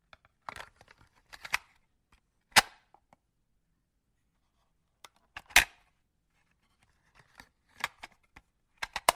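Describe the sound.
Vinyl record being lifted and flipped over to side two: many sharp clicks, taps and light rustles scattered unevenly, with a few louder knocks and quiet gaps between them.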